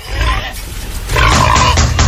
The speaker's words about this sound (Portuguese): Sai pra lá, boi velho.